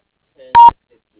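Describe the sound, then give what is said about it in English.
A voicemail beep: one short, steady electronic tone, preceded by a brief fainter lower tone, then silence, with no voices. “If you'd like, please leave a message after the tone, or you may also contact him on his cell phone”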